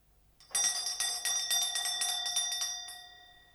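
A tinny doorbell at an apartment door rings with a rapid metallic clatter, its bright tone held for about three seconds in a fast run of strikes before fading slightly at the end.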